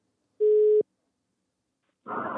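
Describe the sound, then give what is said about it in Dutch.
A single short telephone tone sounds while a call is being placed, steady and even in pitch, ending in a sharp click, followed by a long quiet gap before a burst of noisy sound. “laten we even proberen te bellen en kijken wat hij ervan vond”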